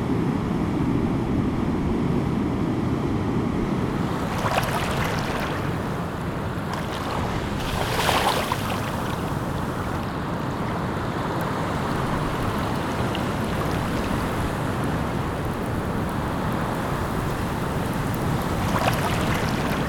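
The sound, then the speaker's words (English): Seaside waves and surf, a steady loud rushing wash of breaking water with wind noise, swelling slightly a few times without any voices. “The seaside.”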